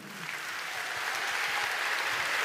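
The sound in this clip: A church audience applauds together to greet the Lord, a steady patter of many clapping hands that builds slightly in loudness and then holds.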